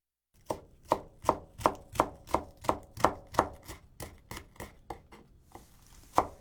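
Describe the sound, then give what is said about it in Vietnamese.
A knife chops leeks into long pieces about 4 cm on a cutting board: a steady run of many crisp, evenly spaced chops, a short pause, then one final sharp cut. “Tiếp đó, chúng ta sắc hành thành từng đoạn dài.”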